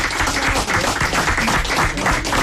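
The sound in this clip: Audience applause in a fado house: dense, steady clapping from many hands that stays loud and even throughout.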